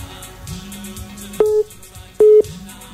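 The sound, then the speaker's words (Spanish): Telephone line tones play while a landline is being called: two short, steady mid-pitched beeps stand out against a low background hum, with a brief gap between them. “Está llamando. Ahí está llamando al teléfono de línea, a ver si nos podemos comunicar.”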